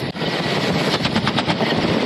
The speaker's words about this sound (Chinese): 武装直升机完成预定目标的首轮打击后，搭载舱门机枪的运输直升机快速隐蔽抵近